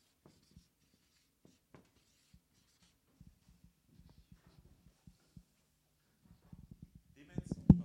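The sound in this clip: Writing on a board during a spoken talk, heard as many faint taps and scratchy strokes spaced irregularly. The strokes grow denser and louder toward the end.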